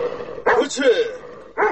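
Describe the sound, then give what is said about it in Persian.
A tied-up dog barks in a few short, sharp bursts, with gaps between them. “بیا معلم صاحب، سگ بسیار محکم بسته کدیم، خدا اعلان کده نمیتونه. ملک صاحب زنده باشی، ای تو یک سگ است که آدم ببینیش میترسه”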